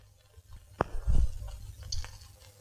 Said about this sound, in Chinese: 吃吧吃吧， 快吃吧，吃饱了还有任务呢。